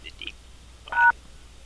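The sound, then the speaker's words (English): A single telephone keypad tone from a pressed key: one short, clear beep over faint background noise. “You have pressed an incorrect key.”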